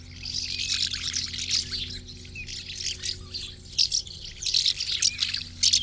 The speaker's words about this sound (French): Tiens, voilà un oiseau qu'on ne voit qu'en été aussi, comme les hirondelles, c'est le pipit des arbres